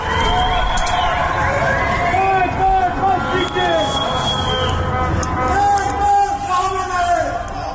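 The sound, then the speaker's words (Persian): Crowds chant protest slogans in Tehran: a loud, dense babble of many voices sustained throughout, with a high wavering siren-like tone running over the chanting. “از مناطق مختلف تهران صدای شعارهای مردمی به گوش می‌رسد.”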